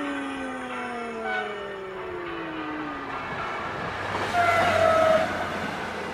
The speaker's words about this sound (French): C'est le train de 17h05 de Reggio Calabria à Catanzo, mais qui ne s'arrête pas à la gare de Riace.